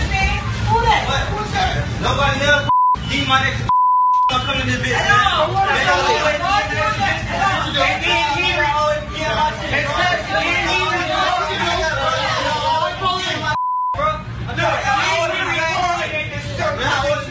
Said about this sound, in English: Based upon the beeps and the amount of people in that facility, that's Popeyes.